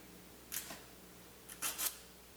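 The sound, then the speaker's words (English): Adhesive tape is peeled back off a painted test sample over a cross-cut X in a paint adhesion test, giving faint, high, crackly ripping bursts: one short tear, then a longer ripping pull a second later. “And then I'm going to pull the loose end back across the length of the tape.”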